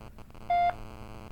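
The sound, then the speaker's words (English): A single telephone keypad tone sounds as a clean, steady beep lasting about a fifth of a second, set against a low, faint background hum. “dial 1, 1, 2, 2, 3, 3, and press the call button.”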